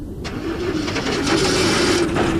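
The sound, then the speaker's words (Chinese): A motorcycle engine runs as the bike rides into the courtyard of an intelligence bureau, a loud continuous low rumble that stays steady and grows slightly stronger partway through. “廖飞骑着摩托车进了情报局的院子”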